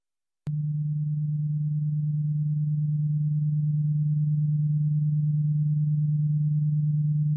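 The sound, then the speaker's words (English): Hearing test tone: a pure, low-pitched steady tone that begins abruptly with a faint click and holds unchanged and alone for about seven seconds, swelling very slightly in level. “Let's see if we go down to hearing test. Yeah, it's going to be a bit like that.”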